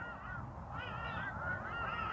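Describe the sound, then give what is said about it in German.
Birds honking in the background, with goose-like calls. Faint, repeated nasal honks come over a low steady hum, with no talk. “Du hörst die Vögel im Hintergrund, stimmen mir zu bei dem, was ich sage”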